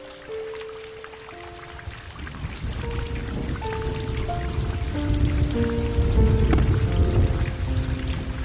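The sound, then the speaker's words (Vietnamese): Steady rain falls in a dense patter of drops that grows louder toward the end, with soft sustained musical notes playing over it. “Mưa đến nửa đêm còn chưa dứt”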